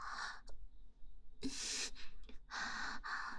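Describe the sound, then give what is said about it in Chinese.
Rapid, heavy breathing comes from a person as several quick, breathy inhales and exhales in an uneven rhythm. The gasps are short and airy, with brief pauses between some of them. “呼吸这么急促啊，弟弟！”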